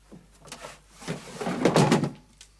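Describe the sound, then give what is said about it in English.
A safe door being opened: a few dull clunks, then a louder scraping, rattling burst of metal near the middle, fading to a light knock at the end. “You aren't allowed to open my safe.”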